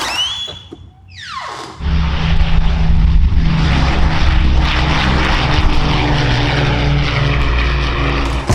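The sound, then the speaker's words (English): World War II Lancaster bomber taking off, its propeller engines building into a loud, dense, sustained roar after a brief falling whine, with the drone holding steady and powerful throughout. “That noise is a Lancaster bomber taking off.”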